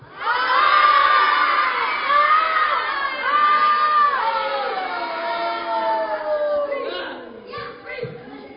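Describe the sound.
A group of children shouts loudly on request, their high voices ringing out together in sustained cries. The noise gradually weakens and breaks into scattered quieter calls near the end.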